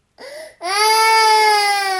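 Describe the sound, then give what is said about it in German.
A three-day-old newborn cries in an infant car seat: a brief wail, a short break, then one long, loud, high-pitched cry that holds steady to the end. “Mein 3 Tage alter Sohn schrie in der Babyschale.”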